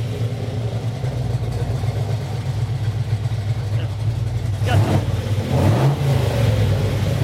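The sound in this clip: A GTS car engine with factory headers holds a steady, deep idling rumble, then gets a couple of brief, louder revs near the end.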